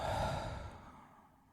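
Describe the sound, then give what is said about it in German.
A person lying relaxed in a breathing exercise, with the tongue tip resting on the upper palate, exhales fully through the mouth in one long, soft, breathy sigh that gradually fades. “atmet einmal komplett die Luft aus dem Mund aus.”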